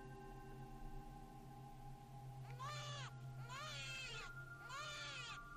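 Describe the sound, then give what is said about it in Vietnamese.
A newborn baby cries outside the living room in three wavering, high, harmonic wails, each lasting under a second, over a steady low drone. “Nhài chợt nghe tiếng khóc váng lên của một đứa trẻ sơ sinh ở bên ngoài”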